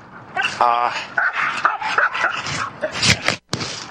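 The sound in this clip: Dogs bark and yip in a few sharp, high outbursts over a person talking and hushing them.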